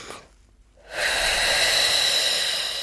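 A deep breathing exercise: faint breath, a short quiet pause, then a long, loud, breathy rush of air that holds steady to the end.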